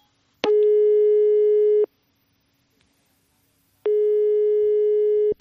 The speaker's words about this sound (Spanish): Solicitud aceptada. Llamada en curso.